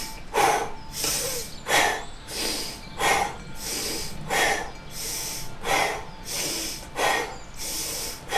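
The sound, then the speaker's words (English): Quick, rhythmic breathing during a guided breathing exercise, drawn in through the nose and pushed out through the mouth: loud, airy hissing bursts that come in steady alternating pairs of inhale and exhale, with no talking. “Now inhale nose. Close the mouth. Exhale mouth. Now we go quicker.”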